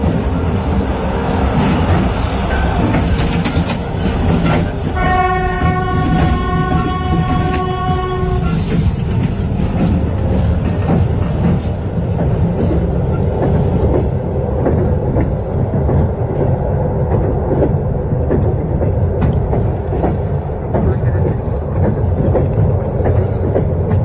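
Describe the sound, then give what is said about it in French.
A train rolls on rails through the Komi Republic toward Vorkuta with a steady, loud rumble and rattle throughout. A sustained tonal sound rises above it for a few seconds early on. “Le train roule dans la République des Komis et nous allons vers Vorkuta.”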